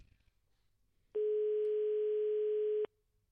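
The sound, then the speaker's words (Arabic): A telephone line tone while calling a private school director's mobile phone: one steady, pure, mid-pitched tone lasting under two seconds, starting and stopping abruptly, loud against a quiet background with no voices. “نشوفوا الهاتف المحمول شنو غادي يجاوبونا ولا لا.”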